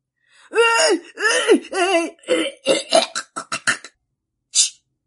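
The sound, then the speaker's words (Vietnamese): Violent coughing, acted by a voice performer for a character in a narrated story. Drawn-out, harsh voiced heaves come first, then a rapid run of short, sharp coughs, and one last isolated burst after a brief pause. “Sư Tòng Tâm vốn đang đắc ý lập tức ho dữ dội”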